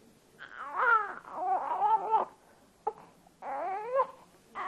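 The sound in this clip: An infant cries in a Tamil drama scene marking the birth of a newborn son. The loud, wavering wails come in a few long bursts with one brief cry between them, and no one talks over them.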